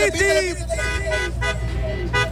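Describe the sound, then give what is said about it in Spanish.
Car horns honking at a busy street crossing in Escobedo, Nuevo León, where drivers respond during a roadside promotion. Loud overlapping horn tones sound in a few blasts, continuing throughout. “A ver, acción el claxon, amigo. Acción el claxon.”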